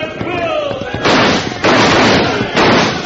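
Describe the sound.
Rifle gunfire in a mounted skirmish against Indian riflemen. Three loud, sustained bursts of broad crackling noise strike one after another, with rougher, quieter noise before them.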